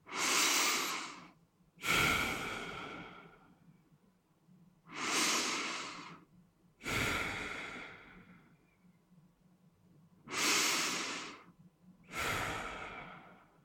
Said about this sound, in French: Commençons par trois grandes respirations.